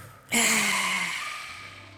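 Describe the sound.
A single deep breath out, a long audible voiced exhale that starts abruptly and slowly fades over about a second and a half.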